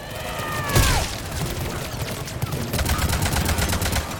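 Gunfire in a video game firefight: a sharp loud blast near the start, then rapid strings of automatic shots rattling in many quick bursts until the end.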